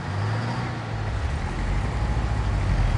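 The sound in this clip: An ambulance driving away gives a steady low engine rumble and broad road noise that grows slightly louder toward the end.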